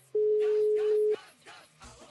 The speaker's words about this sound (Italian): stiamo provando a chiamare il compagno torinese